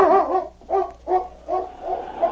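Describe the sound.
A dog barks in a quick series of short, mid-pitched woofs, some with a whimpering edge, loud and spaced at a steady rhythm with no talk.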